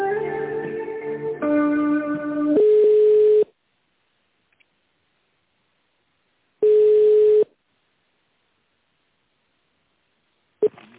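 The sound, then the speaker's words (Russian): Telephone ringback tone as a call is connected, with two steady one-second beeps separated by a long silence and a third just beginning at the end. A short electronic tone sequence comes before the first beep. “Сейчас соединю вас.”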